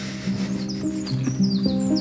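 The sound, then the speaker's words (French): Birds call from newly planted hedgerows with oak, many short, high chirps and tweets flicking over a low, steady hum. “Ouais, on entend le cucu des oiseaux.”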